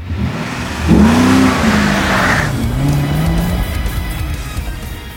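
A 55 Supersport car driving away: the engine surges and revs loudly, then settles to a lower, steadier drone that gradually fades, with no other sounds over it.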